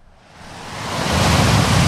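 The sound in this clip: Sea waves surge in a broad rushing roar that swells steadily from soft to loud over the first second, then holds a dense, even wash.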